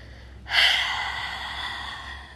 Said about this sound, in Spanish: sostén reteniendo por 3, 2, 1 y exhala grande y sonoro.